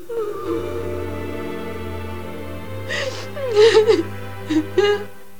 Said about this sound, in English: Jane's sobbing in her room, tortured by the memory.